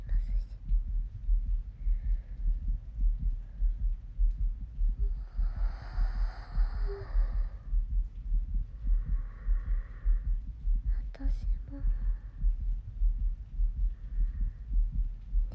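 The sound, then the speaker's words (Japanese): Human heartbeat, a steady, low, rhythmic thumping that continues throughout, with soft whispering drifting over it at several points. “人の鼓動を聞いていると落ち着くって”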